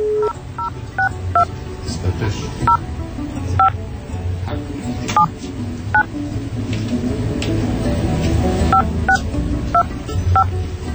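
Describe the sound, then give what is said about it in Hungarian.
Touch-tone beeps of a telephone number being dialed, many short, bright tones in uneven clusters, heard under ongoing talk and background noise. “Most nézem a telefonszám, most próbálom én hívni, jó?”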